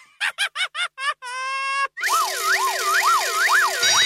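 Electronic siren warning effect: a rapid series of short beeping pulses and a brief steady tone, followed by a loud wailing siren that sweeps up and down repeatedly before cutting off abruptly.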